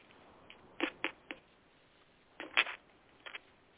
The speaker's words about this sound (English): But real quick, I'll just pick a card for you about love.